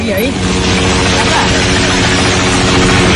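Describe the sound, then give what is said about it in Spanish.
Helicopters fly search missions in Nepal after severe floods near the Tibetan border, their rotors making a loud, steady, low chopping drone that holds level throughout. “Y este es el sonido de los helicópteros en Nepal que continúan haciendo labores de búsqueda tras las gravísimas riadas de ayer en la frontera con el Tíbet”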